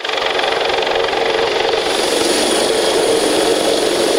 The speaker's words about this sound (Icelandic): Hátíðardagskráin hófst með miklum tilþrifum þegar þyrla gæslunar lenti fyrir utan Hörpu.